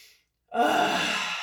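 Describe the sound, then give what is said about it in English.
A deep breath is let out as a long, loud, airy exhale that begins abruptly after a brief quiet gap and holds steady to the end. “Let's do it right now. Let's take in a deep breath.”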